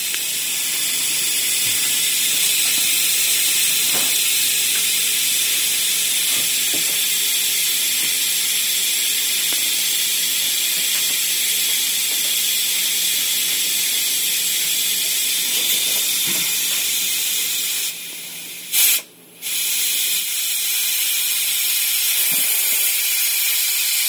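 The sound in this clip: Beef, onions and seasonings frying, a loud, steady, bright sizzle that runs almost unbroken for the full length, with a brief drop-out near the end.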